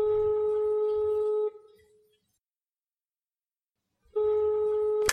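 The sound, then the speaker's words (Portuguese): A telephone ringback tone sounds while a call is placed: a steady, buzzing tone lasts about one and a half seconds, then silence follows before the same tone starts again. “Tá chamando. Vamos ver se ela vai atender.”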